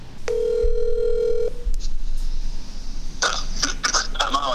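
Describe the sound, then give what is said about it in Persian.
A telephone ringback tone as a call is placed: one steady, buzzing ring about a second long, then near quiet until a voice speaks briefly as the call is answered. “قرار هستش که همین حالا بهش زنگ بزنم”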